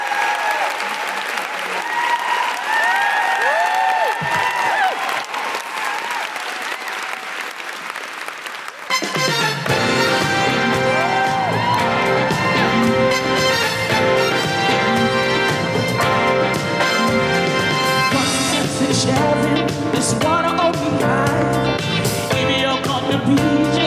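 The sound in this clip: An audience applauds and cheers to welcome a performer at a live International Women's Day show. The sustained clapping and whoops carry on, and music starts partway through and continues under the applause.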